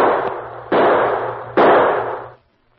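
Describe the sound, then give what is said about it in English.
Three gunshots fire in quick succession, each a sharp, loud crack that spreads into a long sustained tail before the last one fades away to silence. “Maybe if I shoot again.”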